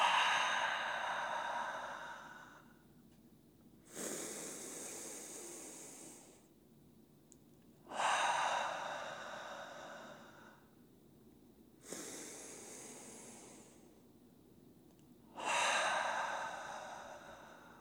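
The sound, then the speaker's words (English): A group breathes deeply together during a group hug meditation: slow, airy inhales and exhales that each last a few seconds, soft and breathy, with quiet gaps between and no talk. “as we take three breaths together. Inhaling, exhaling.”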